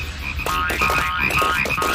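Frogs croak from a pond in a rapid, steady run of many repeated croaks. The croaks are moderately loud, with no voices.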